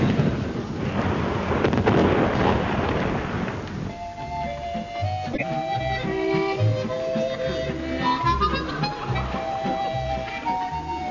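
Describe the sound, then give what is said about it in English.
Heavy naval gunfire from a warship opening up on a helicopter: a dense, rumbling roar of blasts fills the first four seconds, then gives way to music with sustained tones and low pulses. “If you sight the helicopter turn the target, open fire, sir. Very well. And signal the rest of the fleet to do so as well. I heard that. Opening fire now, sir.”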